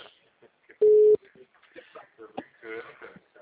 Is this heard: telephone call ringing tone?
yes

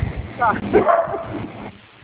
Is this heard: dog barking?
yes

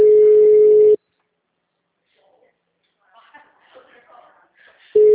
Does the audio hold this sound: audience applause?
no

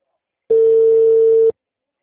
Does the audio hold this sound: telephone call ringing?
yes

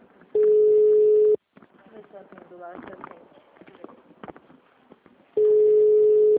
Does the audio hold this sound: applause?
no

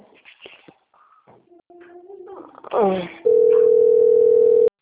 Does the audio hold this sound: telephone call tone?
yes

